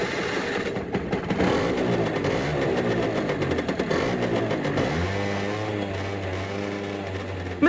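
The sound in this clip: A rocket scooter engine is being started, with several seconds of rattling, churning mechanical noise that then settles into a steady low hum toward the end, with no voices.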